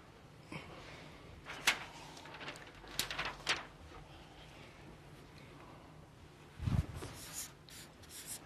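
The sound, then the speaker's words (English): Someone writes a chart on a board. A handful of faint, scratchy strokes come in short bursts separated by quiet pauses. “So I'm going to actually need to write up on the board here.”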